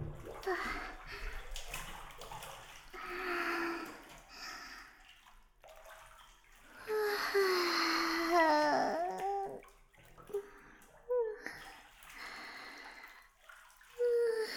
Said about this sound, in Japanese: それでは、私たちもお風呂に入らせていただきますね。